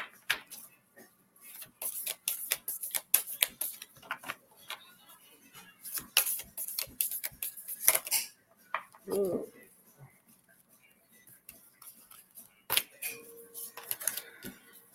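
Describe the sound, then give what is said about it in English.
Playing cards are shuffled and scatter in many quick, crisp clicks and flutters. They come in irregular bursts, with a short lull near the middle before the rustling resumes. “The cards are just going everywhere tonight.”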